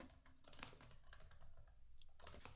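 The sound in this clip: Typing on a computer keyboard: many quick, light clicking keystrokes in an uneven rhythm, quiet and continuous, with no voices.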